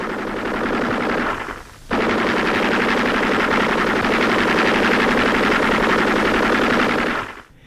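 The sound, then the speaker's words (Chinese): Loud, sustained rapid machine-gun fire from enemies shooting wildly at a hill position in a war-drama reconnaissance scene: dense, rattling bursts that break off briefly near two seconds, then resume and continue before cutting out, with no talk. “导火索很快被引爆了，敌人也开始疯狂的射击”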